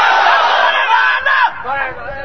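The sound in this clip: A crowd shouts a slogan in unison at an Islamic religious lecture gathering, many loud voices held together in a sustained chant that breaks off and trails into ragged shouting near the end.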